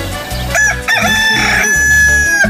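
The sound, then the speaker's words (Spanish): Rooster crowing loudly in one long, strained, harmonic crow that fills most of the moment, rising in intensity and then trailing off near the end, with no talking. “¡Ah, qué bonito canta mi gallo! ¡Qué chulo de pechocho canta mi gallito!”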